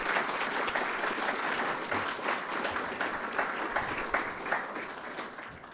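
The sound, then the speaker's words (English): Audience applause for an excellent panel session, a dense, steady wash of many hands clapping that holds at an even level for the whole stretch, with no voices breaking through. “could I ask you please to stay in your seats just for a little while longer, and you in the audience to show your appreciation for an excellent panel session, please.”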